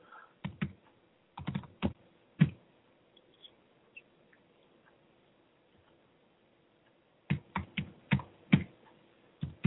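Keys clatter on a computer keyboard while someone signs in, in two bursts of sharp, crisp clicks separated by a long, nearly silent pause with only a few faint taps.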